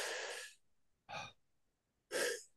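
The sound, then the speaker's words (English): Slow, flowing breathing from a breathwork demonstration gives three soft, airy breaths, each a smooth rush of air separated by near silence, quiet overall. “I can really make nice, elegant, flowing breath. I can go really slow.”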